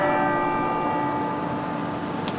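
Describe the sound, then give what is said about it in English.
Bells of St. Colman's Cathedral in Cobh, East Cork, ringing the quarter hour: a steady, sustained, resonant tone with layered overtones, fairly loud throughout. “Ringing out the passage of time in quarter hours, the bells of St. Colman's Cathedral in Cove are a constant”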